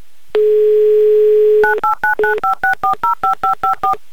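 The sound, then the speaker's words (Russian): A steady telephone dial tone gives way to a fast, even run of many beeping DTMF keypad tones as a phone number is dialed, loud and clean with no voices. “Звоним в Нахабино. Звоним Денису, делаем это прямо сейчас.”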